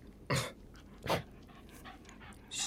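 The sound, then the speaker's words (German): Panting from a small female mongrel dog: a few quick, breathy bursts, with two louder puffs early on and softer, rapid breaths in between. No voices. “Gefällt Ihnen diese Promenadenmischung? Ist eine arme kleine Hündin.”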